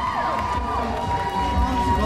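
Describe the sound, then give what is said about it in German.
A crowd of about 1,500 cheering as a performer takes the stage at a dance celebration, a sustained roar of voices with high shouts and whoops riding on top. “Und als Sean die Bühne betritt, bricht ein Jubel aus.”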